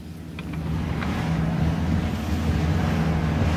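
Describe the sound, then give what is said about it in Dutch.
Wind and waves on open water at the Haringvliet in heavy rain: a steady rushing, buffeting roar with a low rumble underneath. It swells slightly after the opening and stays loud, with no voices. “Er staat een aardig windje en een aardig golfje en vooral heel veel regen ook.”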